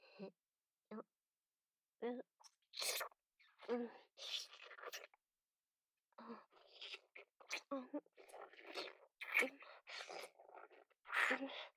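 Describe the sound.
Wet licking and mouth sounds as a snack is eaten, quiet irregular smacks and slurps in short bursts separated by pauses, with soft breaths between them.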